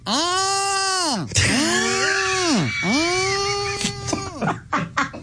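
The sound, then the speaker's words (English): A human voice imitates turtles mating with two long, drawn-out moaning groans that arch up and down in pitch, followed by shorter breathy grunts and gasps, loud and alone. “So I got to see and hear with my own eyes what it is when turtles mate. And it sounds a little like this.”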